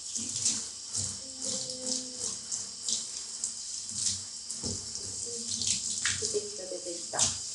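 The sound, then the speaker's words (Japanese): Warm water runs steadily from a tap to wet an animal's fur, a continuous hiss throughout with a few splashy swells, while a person speaks quietly underneath. “ちょっと待ってください。まだ冷たい。”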